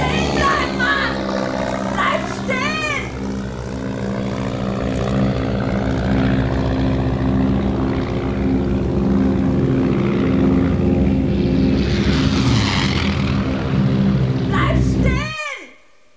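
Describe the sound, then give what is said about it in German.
Deafening aircraft engine roar, a loud, steady droning with a broad rumble that holds for about fifteen seconds before cutting off sharply at the end. “Ohrenbetäubendes Flugzeuggeräusch.”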